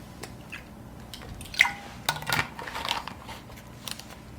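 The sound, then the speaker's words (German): Quiet drinking sounds as someone pauses mid-talk to take a drink: a few soft, wet gulps and swallows with small mouth clicks, spread over a few seconds above a low, steady background hum, with no talking. “Ich muss mal gerade was trinken.”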